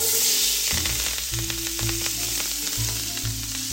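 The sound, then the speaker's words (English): Onions, celery and garlic frying in pork fat in a skillet give a loud, steady sizzle with scattered crackles and pops, with no talk. “now I'm gonna add my vegetables. Okay, in go the onions, celery, and garlic.”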